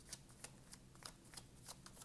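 A Rider-Waite tarot deck is shuffled, producing soft, quiet papery riffles and ruffles in a quick, fairly even series of flicks.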